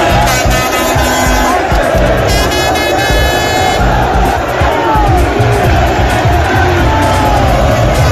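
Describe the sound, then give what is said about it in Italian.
Dense, roaring crowd noise from about 300,000 people celebrating Inter's Italian league title in Milan's streets, following the team's open-top bus from San Siro to the Duomo, with horns honking steadily throughout. “un vero e proprio bagno di folla ieri per le vie di Milano per festeggiare l'Inter campione d'Italia. Si stima che almeno 300.000 persone abbiano accompagnato la marcia del bus scoperto della squadra da San Siro al Duomo”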